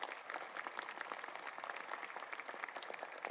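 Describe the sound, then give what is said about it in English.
Audience applause for a guest speaker, faint and steady, a dense patter of many hands clapping with no pause and no clear voices. “Let's show our appreciation to Dr. Westmoreland.”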